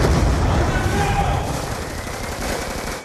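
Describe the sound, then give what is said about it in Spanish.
Grenade explosion and gunfire in the video game Call of Duty Black Ops 2, heard in a cutscene: a loud, dense barrage of shots and booming rumble that fills the whole clip and eases slightly toward the end. “¡Granada, muévanse!”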